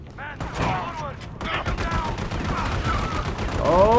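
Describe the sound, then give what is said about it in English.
Rapid gunfire in a shooter video game, a dense, unbroken stream of shots and bursts that stays busy throughout and swells louder toward the end. “It's probably not smart for us to be like standing next to each other shooting.”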